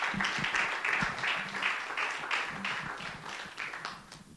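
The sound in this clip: A church audience applauds to welcome a speaker to the podium with steady, moderate clapping that gradually thins and tapers off toward the end.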